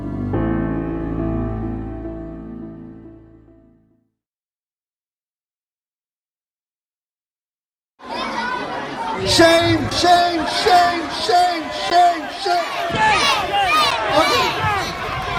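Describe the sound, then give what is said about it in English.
A protester on the back of a van shouts into a microphone as a crowd chants one word over and over in loud, rhythmic unison. Before that, a low, humming tone fades out into several seconds of silence. “That's the sound of a protester standing on the back of a van, shouting into a microphone, whipping up a crowd.”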